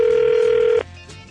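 A telephone ringback tone for a prank call: one steady, loud ringing tone that holds for under a second, then cuts off abruptly, leaving faint line hiss.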